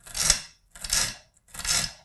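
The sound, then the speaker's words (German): A knife cuts food into small cubes while meatballs are being prepared in a home cooking session, giving three rasping, scraping strokes with short pauses between them, moderately quiet and without talk. “Und jetzt macht man auch bestimmt längs erst und dann ganz kleine Würfel, oder? Genau, also einmal jetzt dann quasi so quer einschneiden.”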